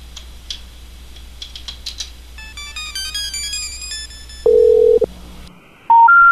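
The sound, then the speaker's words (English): A phone number posted on a baby changing station is dialed through a soundboard: quick clicks, then a run of stepped dialing tones, a loud steady tone, a short silence, and a loud two-step rising tone at the end. “So I'll call this with soundboard. They probably won't answer, but we'll see.”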